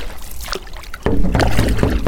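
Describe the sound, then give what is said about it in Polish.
A metal boat is rowed across a pond in strong pre-storm wind. Steady gusty wind noise runs throughout, and after the first second a few dull knocks and splashy oar strokes come in, louder than the wind. “Płyniemy na środek stawu, a dużym utrudnieniem dla wiosłujących i dla nagrywającego jest bardzo silny przedburzowy wiatr.”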